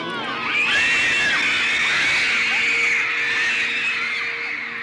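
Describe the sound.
Teenage fans scream hysterically at a 1960s band, a continuous dense wall of high-pitched shrieks from many voices that stays loud and unbroken throughout.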